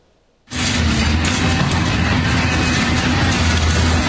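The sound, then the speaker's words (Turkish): A seven-storey building collapses during an uncontrolled demolition in Küçükçekmece, Istanbul, filmed on a phone. After a moment of near silence, a sudden loud roar erupts and continues as a heavy, sustained rumble. “Kontrolsüz yıkımda cep telefonu kamerasına an be an işte böyle yansıdı.”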